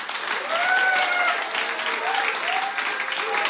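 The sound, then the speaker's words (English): Steady, dense applause from an audience at a live jazz session held at Browns Hotel in Mayfair, London. The clapping is fairly loud and keeps going without a break from start to finish. “As you can tell, I've got a rather excitable audience here at the beautiful Browns Hotel in Mayfair, London.”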